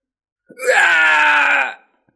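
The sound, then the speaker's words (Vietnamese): A single tormented scream, as of people caught in a devastating heavenly tribulation and turned to ash, sounds as one loud, harmonic, sustained wail of just over a second, alone against silence before and after. “Tiếng gào thét xé lồng truyền ra, có người gặp nạn hóa thành tro bụi, vĩnh viễn xóa tên khỏi thế gian.”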